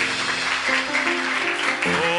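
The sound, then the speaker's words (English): Congregation clapping hands in praise during a church service, a steady, dense patter of claps running under sustained musical tones. “Let's just give the Lord a hand clap of praise.”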